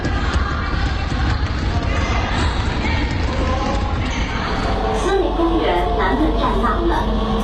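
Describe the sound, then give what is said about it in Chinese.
A basketball game at a large sports venue: thudding ball bounces and running feet mix with a dense, busy crowd and voices, the noise staying loud and continuous throughout. “你听，篮球场上战斗震撼。”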